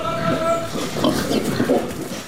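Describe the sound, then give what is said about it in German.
Pasture pigs on a farm grunt and squeal as they rush out of the barn, a dense, continuous jumble of snorts and oinks from a large herd. “160 Schweine, große, kleine, bunt gefleckte, braune, mit oder ohne Fell, stürmen grunzend und quiekend aus dem Stall”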